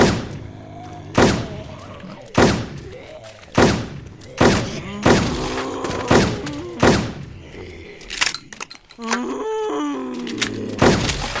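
Scattershot gun firing in a zombie video game: a long series of heavy, booming blasts at a fairly steady pace, each followed by a short rumbling tail, with a brief stretch of other game noise before the final shots.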